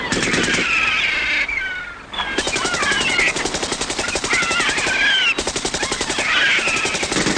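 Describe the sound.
Retreating German soldiers fire back in loud, rapid bursts of automatic gunfire that repeat with brief pauses over a continuous droning noise.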